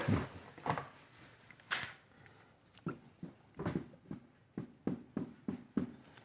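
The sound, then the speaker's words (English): Scratchy strokes of writing the word nichrome on a board during a talk on electric pottery kiln heating elements, many quick, faint rubbing strokes in an uneven rhythm. “I feel like I'm writing with a telephone pole here. Nichrome.”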